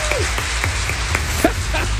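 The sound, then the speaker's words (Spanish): An audience applauds, a continuous, dense patter of many hands clapping at a steady, loud level from start to finish. “Aplausos para ella y también para esta buena persona, ¿no?”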